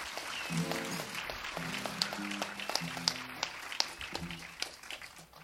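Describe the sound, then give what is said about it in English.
An audience applauds after a song with faint, steady clapping, a few sharper claps standing out now and then. “I hope you were clapping because you liked the song, not wanting me to get off.”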